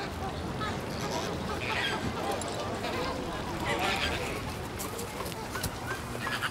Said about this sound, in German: Da saßen ja auch eben gerade die beiden Flamingos noch drauf.